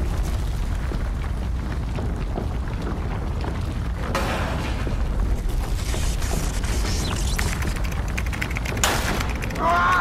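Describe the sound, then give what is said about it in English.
Malfunctioning machine effect in a science-fiction audio drama: a dense, loud mechanical roar with crackling bursts and sharp, explosive jolts that stay constant throughout, with no voices heard. “What is this? Is the machine malfunctioning? I don't know, sir.”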